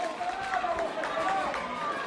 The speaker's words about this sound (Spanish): Hay bastante bulla aquí en el estadio. Estamos esforzando bastante la garganta.